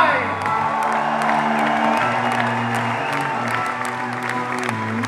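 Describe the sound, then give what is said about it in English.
Concert crowd in Paris applauding and cheering an opening act, a steady, dense roar of clapping with whoops and shouts that holds level throughout. “And another big round of applause”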